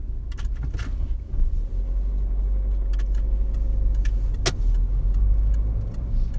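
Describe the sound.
A car driving, heard as a steady, loud low engine and road rumble that holds throughout, with a few faint ticks and one brief sharper click partway through.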